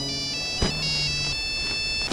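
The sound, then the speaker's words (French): A mobile phone rings with a steady electronic ringtone of sustained, layered tones, broken by a couple of brief clicks. “Non, mais ce que vous avez dans votre main? Bah, un téléphone portable.”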